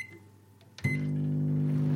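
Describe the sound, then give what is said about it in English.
A microwave oven heating a used kitchen sponge starts with a sharp click, then settles into a loud, steady electrical hum that holds to the end. “We then popped the sponge into the microwave for about a minute.”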